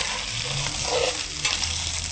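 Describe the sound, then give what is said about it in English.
Stirring in a pot simmering on low, heard as a continuous bubbling sizzle with stirring noise running steadily throughout, with no voices. “we'll simmer it for about 5 minutes on low. And we'll be stirring it occasionally. Do you want me to stir it while you add in the seasoning?”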